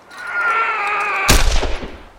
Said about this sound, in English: Men were shooting badly injured horses, putting them out of their misery.